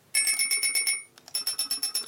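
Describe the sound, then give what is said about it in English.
An electric bell rings, its hammer driven by a pivoting electromagnet and beating back and forth between the bells. Rapid, bright metallic strikes come in two loud bursts split by a short break, with a buzzing rattle under the tone. “driven by an electromagnet that kind of pivots. And here's one of the bells.”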